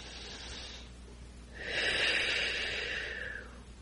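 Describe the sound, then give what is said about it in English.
A slow, deep breath taken during a guided meditation: a quiet, airy rush that swells, holds for a couple of seconds, then fades. “So we are at peace, and we take a deep breath and go even deeper.”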